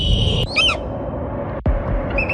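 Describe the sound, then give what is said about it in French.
Call of a Bonelli's eagle, a raptor: a few sharp, high, harmonic squawking notes, a clear burst near the start and a fainter one at the end, over steady background noise. “Alors c'est le cri d'un rapace, ouais. C'est probablement l'aigle de Bonelli.”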